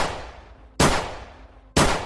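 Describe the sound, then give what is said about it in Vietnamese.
Handgun firing silver bullets: sharp, loud shots about a second apart, each falling into a long fading tail before the next, with no voices. “Vị linh mục giơ hai tay về phía trước, anh cầm chặt khẩu súng hơn, rồi một lần nữa bóp cò.”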